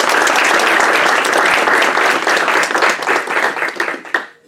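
Loud, dense applause welcoming the Carlisle Scholars at a Notre Dame event. It holds full for several seconds, then thins into scattered individual claps before stopping abruptly.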